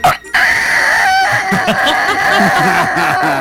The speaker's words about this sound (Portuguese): E tem também aqui barulho de galo carquerejando.